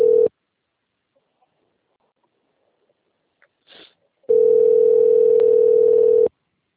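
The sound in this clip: A telephone call tone plays while a number is dialed: a brief steady tone at the start, then near silence with a faint click, then a longer steady, even tone lasting about two seconds.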